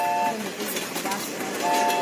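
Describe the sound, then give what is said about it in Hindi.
A train rolls past a station carrying a school team, giving a steady, even rumble of moderate loudness from start to finish. “Happy palace group of school की team को लेकर train चुक चुक करती आगे बढ़ती, station से गुजरती।”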